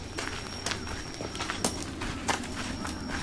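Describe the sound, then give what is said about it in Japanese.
Footsteps of people walking outdoors on a busy Saturday evening stroll, a few soft, irregular steps over a steady background hiss. “歩いてます”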